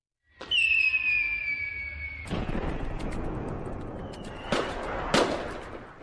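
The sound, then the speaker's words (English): Fireworks exploding: a long descending whistle of about two seconds ends in a loud bang, followed by a rumbling crackle and two more sharp bursts. “Kaboom. Don't you love it, baby? Don't you love it? I do. I love fireworks.”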